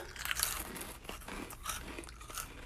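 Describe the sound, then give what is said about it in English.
Cheetos dipped in whipped cream are bitten and chewed. Many quiet, crisp crunches come in an uneven rhythm, with no talk. “Okay, so the first thing we have is Cheetos and whipped cream. So, we're, so we're just, like, dipping it in.”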